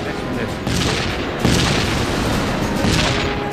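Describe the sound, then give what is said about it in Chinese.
Tank cannon fire in a battle between Soviet and German tanks: heavy, booming blasts over a continuous dense rumble, with two stronger thuds early on and the din staying loud throughout. “我们的坦克集中火力猛烈攻击德军坦克。”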